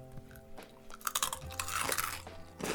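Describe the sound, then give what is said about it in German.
Crunchy rice crackers being bitten and chewed, with several crisp crackling bursts of crunching spread across the few seconds and no talking. “richtig knackig. Hm. Mmh. Hm. Und das schmeckt nach Reis. Ja, es sind Reiscracker.”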